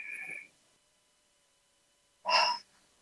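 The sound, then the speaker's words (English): A group breathes in through the nose together, two short audible inhalations separated by a couple of seconds of silence. “So let's breathe in through our nose. And one more.”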